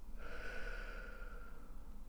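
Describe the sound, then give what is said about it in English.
A slow, soft breath in and out during a guided breathing exercise, a faint airy hiss lasting about a second over a low, steady hum. “let's anchor in this present moment and breathe in together. And out.”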